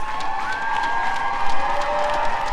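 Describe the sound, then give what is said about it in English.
The audience at a barbershop singing competition cheers and applauds in a loud, dense, continuous crowd roar with shouts and whoops throughout. “And we are about to witness arguably the iconic experience in Barbershop, which is a competition performance from the vocal majority. You can hear the audience starting to go nuts.”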